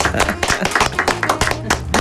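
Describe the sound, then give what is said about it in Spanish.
Audience clapping to welcome a singer, a loud, brisk run of many sharp hand claps at a fairly regular pace. “Que suenen las palmas, por favor.”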